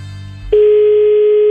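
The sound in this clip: A telephone dial tone while a call is being placed: a single steady, even-pitched tone that holds for about one second, then cuts off abruptly.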